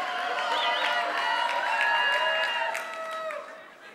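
An audience at a Christmas-season church conference session cheers, with high, sustained whoops and shouts layered over a crowd and faint clapping. The sound holds steady, then eases off toward the end.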